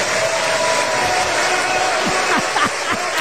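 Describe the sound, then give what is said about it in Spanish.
Audience applause at a political talk show, a dense, steady stream of clapping that holds at an even loudness from start to finish. “¿Qué tal los aplausos? Oye, voy a aplaudir yo también, donde muy bien dicho.”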